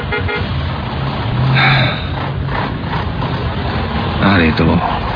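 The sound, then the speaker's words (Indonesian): Traffic jam in Bandung heard from inside a bus: a constant dense rumble of engines and road noise, with a car horn honking briefly near the end. “Bandung sedang macet-macetnya. Aku terduduk di dalam bis, menunggu sampai ke kontrakanku.”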